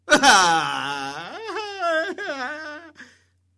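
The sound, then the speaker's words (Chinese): A storyteller's voice imitates a prince bursting into loud wailing and crying: a long, high, quavering howl that wavers and breaks into sobbing catches before trailing off into silence. “你要问了，他哭的是这动静吗？我跟你说，只比我这声还惨，我学的还没到位。”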